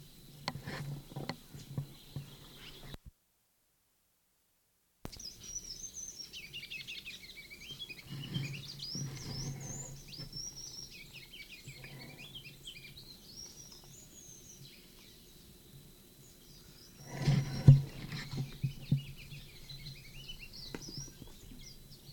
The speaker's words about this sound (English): Sycamore bird at 7:27.